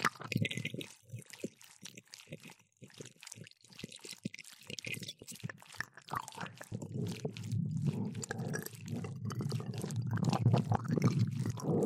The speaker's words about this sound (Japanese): 白いのみんな中へ注いでしまおうな。